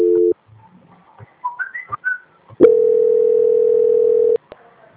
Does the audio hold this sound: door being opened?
no

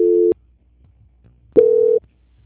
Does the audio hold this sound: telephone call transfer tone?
yes

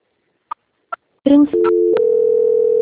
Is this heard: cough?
no

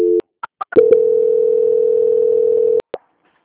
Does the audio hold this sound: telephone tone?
yes

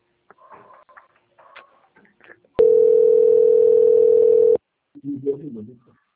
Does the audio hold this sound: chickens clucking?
no

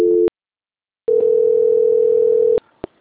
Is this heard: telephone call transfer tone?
yes

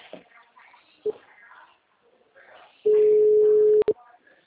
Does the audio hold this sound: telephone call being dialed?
yes

